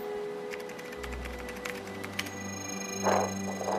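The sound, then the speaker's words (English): Keys tapped on a computer keyboard to type a link produce a run of light, uneven clicks over a steady electronic hum. “Just type in the link. See where it goes.”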